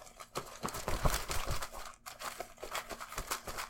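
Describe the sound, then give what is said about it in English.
A real sack is ripped open while a movie is drawn from it, giving continuous crinkly rustling and tearing with a brief break partway through. “Rip into the sack.”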